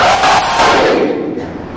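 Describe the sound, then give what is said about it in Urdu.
A crowd at a religious gathering roars the slogan Haidari in unison, one loud, sustained collective shout that swells and then trails off. “نعرہ رسالت پوری جگر کے طاقت کے ساتھ, نعرہ حیدری حیدری حیدری.”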